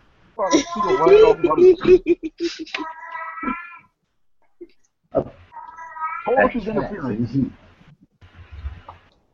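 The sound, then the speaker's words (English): A cat in heat meows and yowls in drawn-out, wavering cries that come in two bursts, mixed with people talking. “Sounds like an angry cat. No, that's a horny cat. Oh, yeah, my cat thinks he's a heat.”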